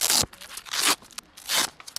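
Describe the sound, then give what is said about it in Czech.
Velcro straps on a suit are pulled open in a few harsh, raspy ripping bursts separated by short pauses, with a faint snag in between. “Je to spousta jakýchsi pásků, suché zipy.”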